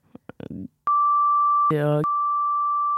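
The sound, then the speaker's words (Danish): Censor bleep covering a word: brief clipped speech fragments, then a long, steady, high-pitched sine beep that lasts over two seconds, with a short voice sound breaking through it partway. “Må bipe ut det.”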